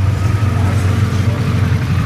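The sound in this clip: Car engine running on a dynamometer during a tuning session: a loud, steady, low rumbling drone with no clear change in pitch over about two seconds.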